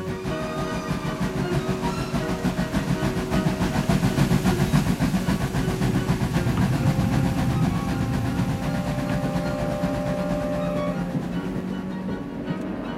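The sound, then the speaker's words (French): A presidential train pulling out of the Gare de Lyon in Paris on an evening in 1920 gives a steady, continuous rolling rumble with a faint tonal whine and no voices throughout. “Le convoi officiel quitte la gare de Lyon dans la soirée.”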